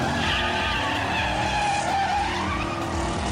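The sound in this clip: Race car engines roar and tires squeal as a race starts, a dense, loud, continuous wash of mechanical noise that holds steady throughout without a break.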